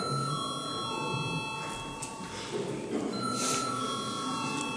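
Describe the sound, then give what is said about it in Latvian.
A parliament bell rings before a vote, a sustained, steady electric ringing with a bright, unwavering tone that carries on throughout without breaks, over faint background noise in the chamber. “Ir iebildumi. Lūdzu zvanu.”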